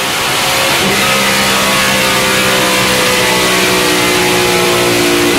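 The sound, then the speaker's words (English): A car engine revs loudly as the accelerator is pressed, building into a sustained, strong droning roar with steady tonal hum that holds for several seconds. “Oh, yeah, a little bit of fuel there. Yeah, let's give it all. Push that juice pedal.”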